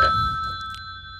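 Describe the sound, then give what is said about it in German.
A telephone rings with an incoming call: a steady electronic ringing tone held throughout, fading slowly over a low background rumble. “da haben wir einen Anruf.”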